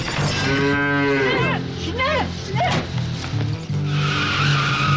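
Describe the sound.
Cows moo in a few long, drawn-out calls, loud and bending in pitch, with a steady low rumble underneath.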